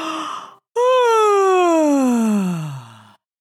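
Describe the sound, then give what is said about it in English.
A long voiced yawn: a brief breathy sound, then a drawn-out tone that rises slightly before sliding steadily down in pitch for about two and a half seconds, alone without other sounds. “He yawned.”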